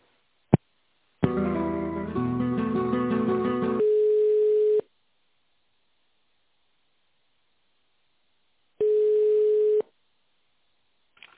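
Telephone line tones during a call transfer: a click, a few seconds of busy tonal chiming, then a steady beep, and after a long silence one more identical beep.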